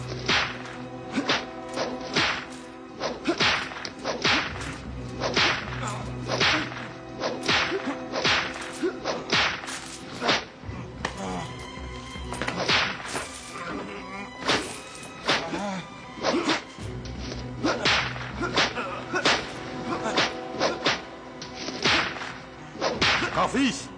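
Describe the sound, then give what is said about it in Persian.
Repeated whip lashes during a beating: many sharp cracks in an irregular rhythm over about twenty-four seconds, some in quick bursts, with voices present at times. “آنقدر بزن تا به خاک بیفتد. بزن.”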